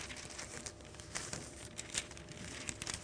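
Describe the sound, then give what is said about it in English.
Pages of a torn-up Bible are flipped, making faint paper rustling and crinkling with a few small soft peaks and no voices. “Okay, this is the problem with tearing your Bible up. I need page 971. Here it is.”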